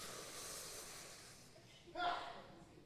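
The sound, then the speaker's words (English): A group taking a large, deep breath from the stomach, a soft, airy hiss of many people inhaling together, followed by a brief, louder breathy burst. “take your hand, place it on your stomach, and I want you to take a large, deep breath from your stomach. Make your stomach as big as you can.”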